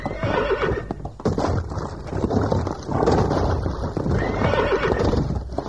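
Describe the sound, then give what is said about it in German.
Horses neighing and whinnying loudly as they rear restlessly behind a fence, with a steady clatter of hooves running underneath for the whole stretch, no talking. “Dann sind unsere Pferde zickig und nicht das Zirkuspony. Außerdem ist ja der Zaun dazwischen. Achtung, Snoopy steigt hoch.”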